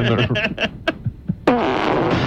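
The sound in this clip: A loud, sputtering fart noise breaks in after some brief talk and lasts to the end. It is a broad, raspy blast with a wavering, buzzing tone.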